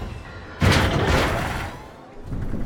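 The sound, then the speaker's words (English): A lift hurtles backwards and then shoots upward: a sudden loud rumbling whoosh swells, roars broadly for about a second and slowly fades, then begins to build again. “The gate closes. The lift hurtles backwards, then shoots up.”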